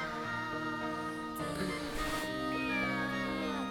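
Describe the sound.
Meowing from a cat that had eaten chocolate, drawn-out and tonal, with long sustained harmonic cries that run almost without a break and bend in pitch near the end.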